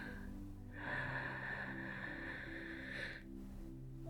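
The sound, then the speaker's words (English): A deep breath drawn in slowly, a long airy inhale of about two and a half seconds over a steady low background tone. “Breathe it in for me, sweetie. In.”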